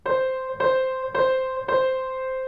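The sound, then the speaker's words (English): Four repeated piano notes on the same pitch, each struck with one finger, ring out at an even pace. Every note starts with a clear attack and decays briefly, leaving a small separation before the next one. “Now, if I were to play those four notes with one finger, it's going to sound like this.”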